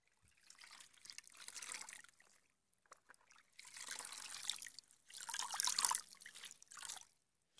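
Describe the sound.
Soft water trickles and splashes as a lying child is washed while feverish. The sound comes in several gentle pouring bursts separated by brief quiet gaps.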